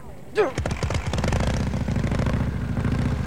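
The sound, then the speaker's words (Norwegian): A vehicle engine with a petrol tap starting up: a brief whine, then low, rapid firing pulses that quicken and settle into a steady running rhythm. “Er bensinkranen oppe i dag, da, tror du? Den er oppe. Alt i orden. I dag skal det gå unna. Vi skal bare starte først, så.”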